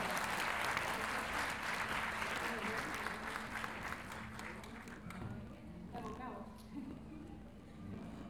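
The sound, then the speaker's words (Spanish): An audience applauds at a stage event of Chilean improvised folk verse. Dense, loud clapping fills the first five seconds, then thins and fades, leaving quieter scattered claps with voices underneath. “Un aplauso para ellos.”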